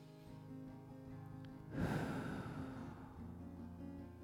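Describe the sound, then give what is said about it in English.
A deep breath taken during a guided relaxation exercise: one airy, noisy inhale rises abruptly and then slowly fades, over soft sustained background music. “We'll sit comfortably. Breathe deeply.”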